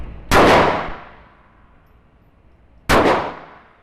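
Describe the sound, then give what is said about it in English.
Two loud revolver shots at a shooting range near Kansas City, Missouri, about two and a half seconds apart. Each is a sharp, booming crack followed by a long, fading tail, with no voices between them. “I'm astonished at the power of this small revolver. It's only the size of a man's hand. But even with ear protection, the sound of the shots booms out and vibrates inside my chest.”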